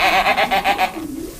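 Goats bleating on a dairy farm, a loud wavering bleat made of quick pulses that drops into a softer, lower trailing call.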